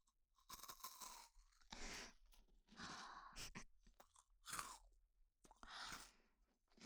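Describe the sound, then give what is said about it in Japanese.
Someone chews a cookie close to the microphone, with many crisp crunches and wet mouth sounds in uneven bursts, separated by brief pauses and quiet throughout. “なるほど、クッキーの音ですね。”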